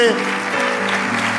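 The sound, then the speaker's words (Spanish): Sustained applause from an audience at a church service, a dense, steady clapping wash that stays even and loud for the whole stretch, with a steady tonal hum beneath it. “ese aplauso es la expresión de tu agradecimiento, dale un aplauso fuerte.”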